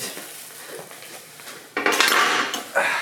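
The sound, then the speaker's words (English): A knife clatters against dishes, a bright metallic jangle that breaks out after a quiet stretch, holds for a moment, then returns in a second burst at the end. “He has a knife. I can handle it. He's got a knife.”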